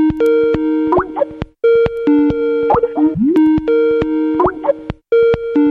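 An outgoing telephone call ringing through: a repeating electronic ring pattern of layered tones with short gliding blips, cycling several times with brief gaps between cycles.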